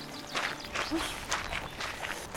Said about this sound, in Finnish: Kävellään tästä.